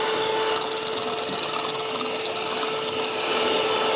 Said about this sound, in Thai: อันนี้เราใช้แค่เครื่องปั่นนะคะแค่ปั่นเฉยๆนะคะ